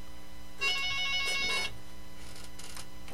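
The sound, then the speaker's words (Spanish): A mobile phone ringtone from an incoming call: a bright, tonal electronic chime lasting about a second, followed by fainter, shorter bursts over a low steady background hum. “¡No me están marcando! No me estén marcando. ¿Quién me está marcando? Espérenme, déjenme quitarlo.”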